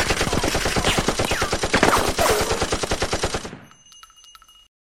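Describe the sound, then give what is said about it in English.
Machine gun fire rattles out as one sustained burst of many rapid, evenly spaced, loud shots lasting about three and a half seconds, then cuts off, leaving a faint ringing tail. “What if I take this machine gun over here?”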